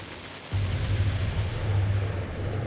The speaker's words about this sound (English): Simultaneously, two other shells burst in the air near the body.